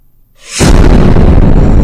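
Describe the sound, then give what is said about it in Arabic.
A big explosion in a bathroom: near silence, then a sudden loud blast that swells into a dense, roaring rumble and holds at full strength to the end. “سمعت صوت انفجار في الحمام، انفجار كبير.”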